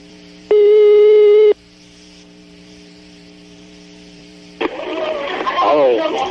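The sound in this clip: A telephone tone on a prank call sounds once, steady and loud, for about a second. A low steady line hum follows, then a noisier crackling stretch.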